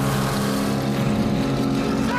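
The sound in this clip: Motorboat engine roaring as the boat speeds head-on between two inflatable boats: a loud, steady, rumbling drone with broad rushing noise that continues unbroken for the whole clip.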